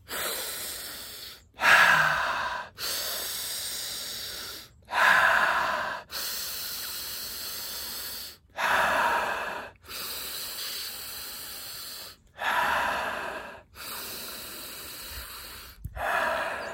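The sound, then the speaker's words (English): Connected breathing in the Wim Hof style, drawn in through the nose and let out through the mouth: loud, airy hissing breaths in a steady repeating rhythm, each separated by a brief pause, with no talk. “So I'm going to go through my nose and in through my nose and out through my mouth.”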